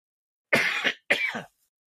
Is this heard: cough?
yes